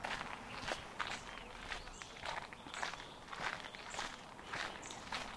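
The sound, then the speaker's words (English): Footsteps of people walking on a riverside path near trees, a faint, steady rhythm of soft crunching steps that repeats evenly throughout. “As we walk on,”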